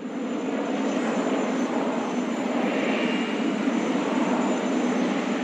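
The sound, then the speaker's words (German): Aircraft engines roar on an airport apron in a loud, steady, unbroken drone, with a thin high whine running through it and no voices. “Zum Bodenpersonal gehören zum Beispiel Technikerinnen oder Logistiker ohne sie geht nichts am Flughafen oder besser gesagt, ohne sie fliegt nichts. Ihre Arbeitsumgebung müssen wir uns ungefähr so vorstellen.”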